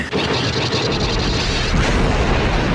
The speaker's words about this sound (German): Luke, schieß ihn in Stücke!